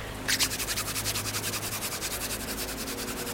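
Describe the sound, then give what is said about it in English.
Paws rub briskly together in a fast, even back-and-forth rhythm of many short scratchy strokes, a soft dry rasping that keeps a steady pace throughout. “Maybe if I rub my paws together.”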